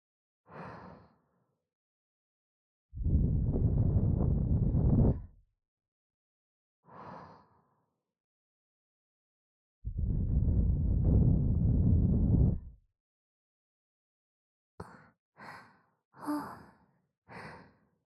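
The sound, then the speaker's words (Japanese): Close breathing right by the ear, with short soft breaths alternating with two long, loud sighing exhales, then a few quick breaths near the end. “耳元で呼吸を繰り返すだけで勇者様の体ビクビクと震えています。”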